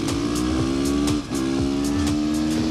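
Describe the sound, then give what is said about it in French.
Supermoto motorcycle engine running on a wet track on rain tyres, a loud, steady buzzing drone with one brief dip near the middle before it picks back up. “Et le moteur fait un bruit vraiment sympa.”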